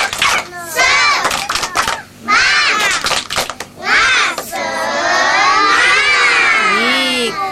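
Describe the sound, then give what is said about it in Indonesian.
Children perform the 'tepuk semangat' spirit clap chant, with bursts of rhythmic claps and shouted syllables giving way to a sustained, loud group cheer. “Baik, tepuk semangat.”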